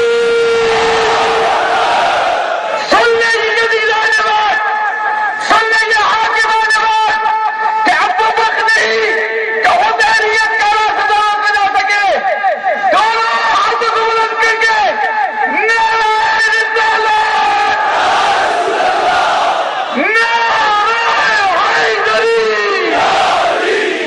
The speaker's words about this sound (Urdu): دونوں ہاتھوں کو بلند کر کے دل کی گہرائیوں سے نعرہ تکبیر۔